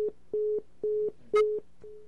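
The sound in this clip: Busy tone after a dropped phone call, a steady string of short electronic beeps at one mid pitch, evenly spaced with equal gaps of silence, repeating alone without any voices.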